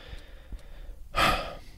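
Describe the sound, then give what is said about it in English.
A quick, breathy inhale: one short rush of air that follows a near-silent pause and then fades away softly. “Just going to take a quick breath.”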